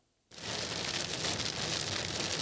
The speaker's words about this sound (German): Am frühen Abend zieht das Unwetter mit Regen und Sturm über Niedersachsen.